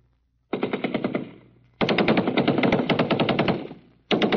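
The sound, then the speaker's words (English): Machine gun fire over a military infiltration course with barbed wire, live rounds fired overhead: three loud, rapid, rhythmic bursts of sharp reports, the second the longest and the last cut off. “You go through the infiltration course, crawling on your belly under mazes of barbed wire, live bullets from machine guns whizzing over your head.”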